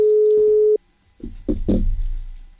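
A telephone tone heard while calling a public phone booth: a steady low beep lasting under a second that cuts off abruptly. A few soft clunks and rustling handling noises follow.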